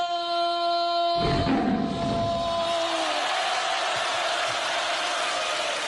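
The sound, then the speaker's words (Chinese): A live comedy audience breaks into a sudden burst of cheering and shouting on cue. The loud, broad wash of voices follows steady tonal notes and then settles into sustained crowd noise. “朋友们，一会儿我起个头，大伙一欢呼，姜昆就算掉老虎洞里了啊！”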